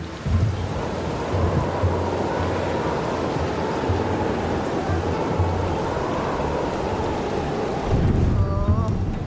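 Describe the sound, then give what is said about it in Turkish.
Heavy rain pouring down in a dense, unbroken roar with a low rumbling undertone, staying loud throughout and swelling slightly near the end. “nasıl bir yağmur böyle?”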